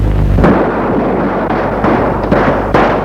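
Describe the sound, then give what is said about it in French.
Gunfire from a revolver: one loud, sharp blast followed by several more bursts over a dense, continuous roar, with no talking. “Elle est tellement paniquée et à peur qu'elle sort le revolver et tire.”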